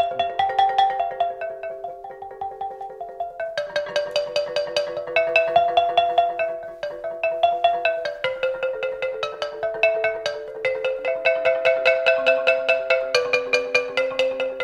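A cut sandwich stone in Iceland, split lengthwise like two slices of bread, is played as a musical stone: rapid, bright, bell-like ringing strikes step between clear pitched intervals in a steady, continuous stream.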